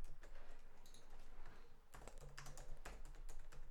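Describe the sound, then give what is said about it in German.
Quiet, rapid clicking of keys as someone types on a computer keyboard. The irregular taps run almost continuously, with a brief pause partway through. “deswegen tippe ich auch gerade so ein bisschen”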